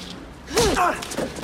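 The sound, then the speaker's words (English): Punch as a woman decks a man in a tense film scene, a single dull thud with a quick swish near the middle, followed by brief voice sounds and scuffling. “She starts to leave, then decks him.”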